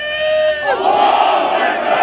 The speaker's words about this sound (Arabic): هنا اصطفت الحناجر لأجل القدس، هتافات ولافتات تطالب بالانتصار لأهل الشيخ جراح وتنادي بضرورة وقف جرائم المحتل وملاحقته. أصوات هتفت مجتمعة لأجل القدس والمسجد الأقصى وفلسطين.